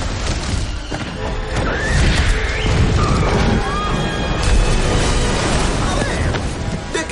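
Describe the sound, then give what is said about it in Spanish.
An animated dragon's long tail smashes into a tower, which topples others one after another: a loud, dense wall of crashing and rumbling debris that runs continuously, with heavy low booms surging midway and again later. “Con su larga cola da bandazos. Choca contra una torre y la derriba. La torre empuja a otras que caen de una en una”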